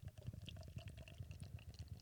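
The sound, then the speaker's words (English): Nitro beer pouring from a can into a glass, a soft, steady low gurgling and bubbling that runs through the whole clip with no voices. “Let me get this poured.”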